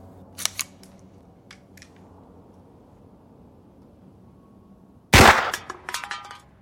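A gunshot fired at a tin can balanced on a person's head: one loud, sharp crack with a ringing, decaying tail, preceded by a few faint clicks.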